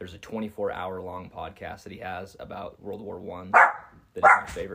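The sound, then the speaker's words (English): A dog barks excitedly in two loud, sharp bursts near the end, cutting through steady conversation between people talking. “Viewer, what you're hearing is a dog barking and going bananas, but it's okay.”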